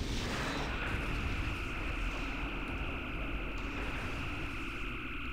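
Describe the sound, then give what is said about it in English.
A long, unbroken phaser burst fires from the starship Excelsior at a Constitution-class ship in the video game Star Trek Legacy, a loud steady hissing roar with a thin whining tone running through its full length. “I want to see the Excelsior open fire on the Constitution class, and wow, look at the length of that phaser burst. Incredible.”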